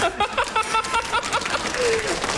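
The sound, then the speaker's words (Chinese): Applause from an audience after a Peking opera-style singing bit, a dense clatter of claps with voices over it. “你姨跟你姨父给你鼓掌了。”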